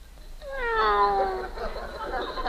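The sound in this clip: A single drawn-out cat meow with a clear, bright tone; the cat is scratching at a fish bowl. It swells and then trails off into a faint rasp.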